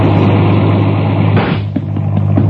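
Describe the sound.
A car being driven gives a loud, steady rumble with a strong low hum that holds throughout, broken by a brief dip near the end before the engine and road noise return.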